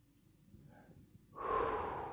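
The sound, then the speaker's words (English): A deep breath, heard as a sustained airy rush that starts suddenly after about a second of near silence and holds steady to the end. “And so you take a deep breath.”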